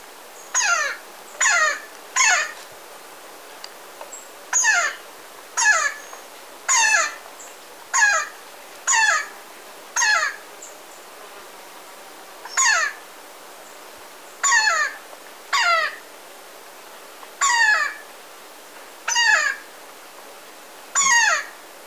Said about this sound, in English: Powerful Woodpecker.